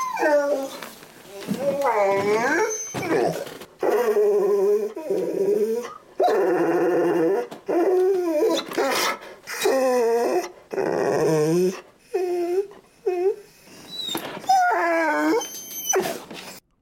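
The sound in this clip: A dog wails and howls in many drawn-out, wavering, high-pitched cries, each separated by short pauses, loud and alone.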